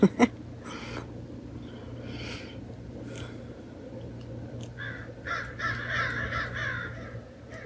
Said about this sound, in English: Maybe like the crows, we don't want to, though. We want to squawk and make a commotion.